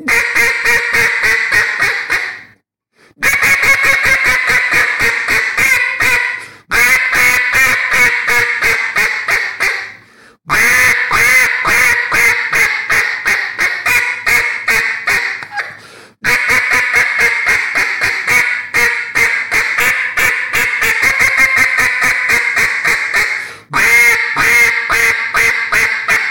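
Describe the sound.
A wooden duck call from Jargon Game Calls, blown to give loud, rhythmic runs of raspy quacks, repeated in several long sequences separated by short pauses.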